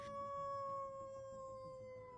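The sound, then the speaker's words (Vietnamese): A lead dog of a pack howls mournfully: one long, sustained tonal howl with clear harmonics, holding steady and drifting slightly lower in pitch as it trails on. “Con chó đầu đàn ngồi trước mặt đứa bé, đưa lưỡi liếm vết thương rồi chu lên một tràng đầy ai oán.”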